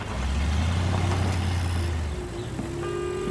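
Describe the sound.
A convertible car drives along a village road and brakes near houses, with a steady, rumbling engine and low hum that stays even throughout.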